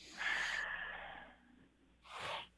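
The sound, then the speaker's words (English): A person draws a deep breath in, a long, airy inhale that fades out, followed after a short pause by a second, briefer breath. “basically just take a deep breath in. All right. So we'll do that now.”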